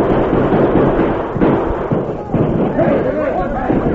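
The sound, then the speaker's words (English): Gunfire from soldiers' hard-hitting carbines and outlaws' guns crackles through a night battle on a hillside in a radio drama. The barrage is dense and rumbling, broken by a few sharper cracks, with voices heard over the shooting. “The alert soldiers responded quickly, firing their hard-hitting carbines at the flashes of the outlaws' guns.”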